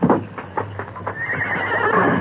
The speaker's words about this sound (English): His bronc was grazing near the door. Easy, easy. Touch the bronc, Tonto.